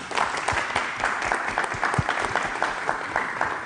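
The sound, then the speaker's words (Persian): Audience applause, a steady, even run of many hands clapping together for a few seconds without pause. “ممنونم یه دست براشون بزنید”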